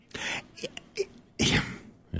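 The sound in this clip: A person sneezes: one loud, noisy burst that follows a few shorter breathy vocal sounds, with a little voice at the end.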